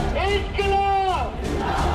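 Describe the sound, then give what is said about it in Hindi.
Protest crowd at Jantar Mantar chanting the slogan Inquilab Zindabad, massed voices shouting in unison with long drawn-out syllables, loud and forceful over a rough background roar. “Dharmendra Pradhan का इस्तीफा हुआ तो जंतर मंतर से इंकलाब जिंदाबाद का नारा गूंजा।”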